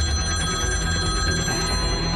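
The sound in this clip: A telephone ringing with an incoming call, a continuous bright electronic ring with layered steady tones that holds at an even, fairly loud level throughout.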